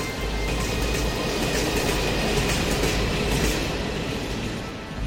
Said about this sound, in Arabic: كنت إذا بدك تروح من دمشق للمدينة المنورة فيك تركب قطار الحجاز اللي تأسس بنهاية فترة السيطرة العثمانية